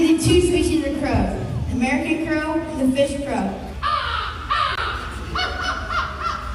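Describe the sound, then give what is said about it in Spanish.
A person's voice imitates a crow, giving several harsh, nasal caw-like calls in a row, each rising and falling in pitch, over constant background noise. “Imitaba, por ejemplo, a un cuervo.”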